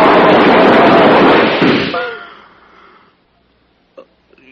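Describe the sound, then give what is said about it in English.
A gunshot in a radio drama: a loud blast that sustains and then fades away over about two seconds, followed by a brief faint click. “Why didn't it work? They shot at me.”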